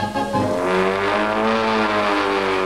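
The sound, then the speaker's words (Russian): An aircraft engine droning on the climb before a parachute jump: a loud, sustained hum of layered tones with a slightly wavering pitch, unbroken from start to finish. “Гудит мотор, хороший июльский вечер.”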